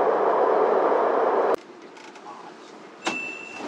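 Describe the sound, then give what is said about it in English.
A Line 10 subway train runs with a broad, steady roar that cuts off abruptly partway through. A quieter stretch follows, then a sharp click and a thin, sustained electronic tone. “Welcome to Subway Line 10.”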